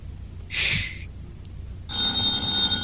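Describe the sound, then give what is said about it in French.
A telephone bell rings in two bright, loud bursts, the first short and the second longer and running to the end, with no talk over it. “C'est le téléphone, n'est-ce pas? Répondez-moi. Oui? Oui, c'est le téléphone.”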